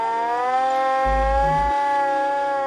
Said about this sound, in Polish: Pokręcił korbą, uruchamiając sygnał. Syrena wydała z siebie niskie buczenie, które stopniowo przechodziło w przenikliwe wycie.